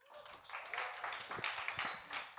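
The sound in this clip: Audience applause welcoming a speaker to the front at a church gathering: steady, dense clapping from many hands that holds at an even level throughout.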